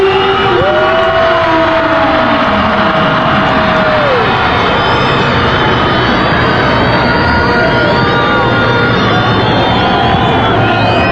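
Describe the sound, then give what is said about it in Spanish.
Nicaraguan football fans roar as their national team walks onto the pitch. The loud, unbroken crowd din carries long wavering horn-like tones above it. “Ya va a entrar al terreno de juego la selección de Nicaragua. Mientras los ticos están haciendo trabajo de calentamiento, va Nicaragua para la cancha. Así lo recibe el público, los aficionados nicaragüenses.”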